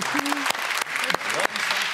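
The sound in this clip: Audience applause at a televised quiz game, heard as dense, steady clapping from a crowd with a voice briefly audible over it.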